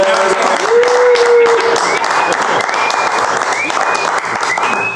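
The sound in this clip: Loud audience applause for a birthday at a loft party, thick continuous clapping throughout with cheering voices rising over it.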